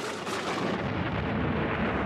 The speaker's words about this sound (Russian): Слышится раскат грома, но я не чувствую боли в ушах.